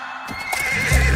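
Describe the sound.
A horse neighs in a radio advert: a short, loud, high whinny with quivering pitch, followed by a low sustained sound near the end.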